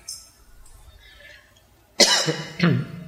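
Coughing rings out from the audience at an evening religious study session. After a quiet stretch of faint room noise come two loud, harsh coughs in quick succession.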